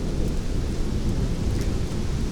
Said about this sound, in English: And we got thunder clipping the audio.